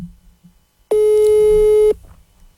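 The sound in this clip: A telephone tone sounds after a call is dialled. It is a single steady tone lasting about one second, loud and unbroken, with quiet low noise before and after it.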